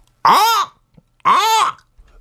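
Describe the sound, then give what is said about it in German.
Human voice imitating a hawk's call: two loud, drawn-out screeching cries, each arching up then down in pitch, separated by a short silence. “Ein Habicht, der Vogel Habicht. Okay, der fliegt hoch in der Luft. Ah ja, wie macht er denn? Ich glaube, der macht,”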